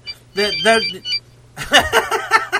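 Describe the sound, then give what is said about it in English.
A telephone rings in the middle of a talk show, a bright electronic trill in short bursts mixed with people talking, over a low steady hum. “the nice to get a phone call in the middle of the show.”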